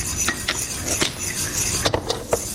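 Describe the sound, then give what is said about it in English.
A utensil stirs a mixture continuously in a pot, giving quiet scraping and swishing with several sharper clinks against the side. “the whole time you're doing this, you want to make sure that you're stirring continuously.”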